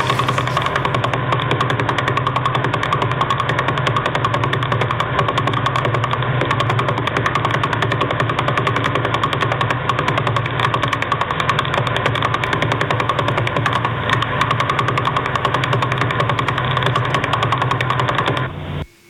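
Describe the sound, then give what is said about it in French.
Sonified radio signal of a millisecond pulsar, a loud, steady, rapid buzzing drone that holds constant for about eighteen seconds before cutting off. “que vous venez d'entendre sont des sons de pulsar. Ce pulsar est appelé un pulsar milliseconde car il dépasse un certain nombre de tours par seconde.”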